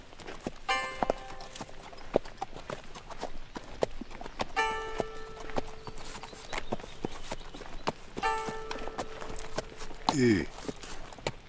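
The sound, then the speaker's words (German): Hooves of a ridden horse clip-clop in a steady walking rhythm under drizzle, a string of dull knocks with a few short ringing tones recurring in between. “Richter Dee hielt sein Pferd an und warf einen sorgenvollen Blick zum bleiernen Himmel.”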